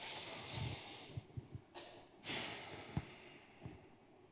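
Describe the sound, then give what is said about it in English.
A big breath drawn in at the opening of a prayer: a soft, airy inhalation with a few faint snorting puffs, quiet and heard alone without talk. “Let's all start just with a big breath here.”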